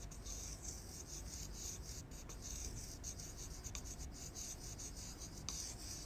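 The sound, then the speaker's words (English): A poor-quality dry erase marker scratches across a whiteboard in a continuous, faint, dry rubbing sound, with a few sharper squeaky strokes along the way. “This is not a good dry erase marker.”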